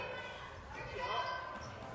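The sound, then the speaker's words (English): A basketball is dribbled on the court during a women's game, its low thumps sitting under continuous, steady background noise that runs through the whole stretch. “On the dribble, goes baseline, pulls back out to the wing.”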